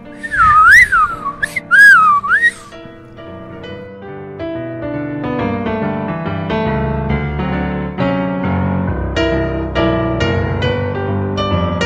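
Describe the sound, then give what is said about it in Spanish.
A person whistles two short, bright, swooping phrases that rise and fall in pitch, loud and alone, then steady instrumental music takes over and continues to the end. “O, tal vez, solo silbar. ¿Sabes silbar, verdad, Steve? Solo tienes que juntar los labios y soplar.”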